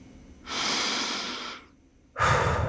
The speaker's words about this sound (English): Just catch your breath. Breathe.